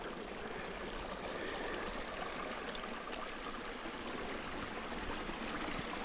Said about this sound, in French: Je m'éloigne de ce petit cours d'eau.